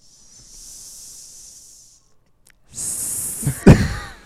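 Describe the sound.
Snake hissing in two long, breathy bursts, the first steady and soft, the second louder and rougher after a short gap.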